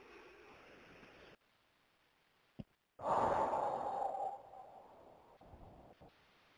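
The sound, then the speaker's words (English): One deep breath taken alone: a soft, quiet intake, then a brief pause and a long, breathy exhale that swells loudly before trailing off into near silence. “One more deep breath.”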